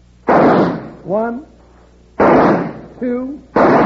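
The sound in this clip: Three loud gunshots fired in a shooting contest, aimed at leaves to clip them off at the stem. The sharp blasts come well spaced apart, each ringing out briefly, with short tonal sounds in the gaps.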